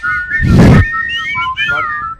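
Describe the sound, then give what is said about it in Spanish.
A person whistles badly, producing a short, wavering, high-pitched tune with unsteady notes and a loud breathy rush of air partway through. “sabe silbar? Silbar, pero fatal.”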